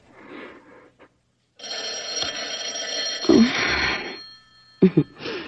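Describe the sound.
An old-style telephone bell rings loudly in bursts, a short ring first, then a long sustained ring of about three seconds, followed by a brief further burst.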